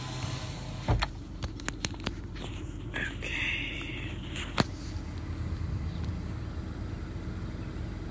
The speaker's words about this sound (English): Let me put down this window.